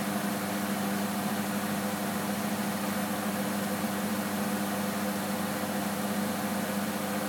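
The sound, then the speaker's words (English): Steady motor hum of a washing machine spinning a full load of towels, still short of full spin speed, droning evenly and fairly quietly with no clear changes. “I've got a full load of towels in this thing, guys. Seriously, that is full. That's not full spin yet.”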